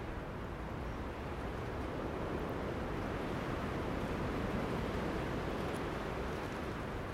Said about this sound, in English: Just after 8 a.m. I guess you'll be able to hear this wind.